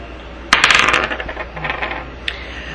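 A single penny drops during a tabletop dice game, landing with a sharp metallic strike and then rattling and ringing for over a second as it settles. A faint small click follows near the end.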